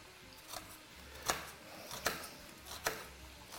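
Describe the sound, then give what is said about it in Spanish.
A knife cuts food on a board, lengthwise and then crosswise, with a few sharp, crisp cutting strokes at an irregular pace, over a faint background. “Vamos a cortar primero a lo largo y luego a lo ancho.”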